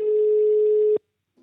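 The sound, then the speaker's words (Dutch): A telephone rings out while a call is placed: one steady, mid-pitched ringback tone is held for about a second, then stops abruptly into silence, with a faint brief sound at the very end. “We gaan, eh, we gaan hem bellen, de, de initiatiefnemer achter dit initiatief.”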